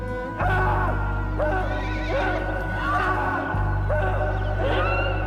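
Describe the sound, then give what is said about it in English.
Horses neigh in a corral: several loud, shrill whinnies repeat over a steady low drone. “The muffled screams disturb the horses in the corral.”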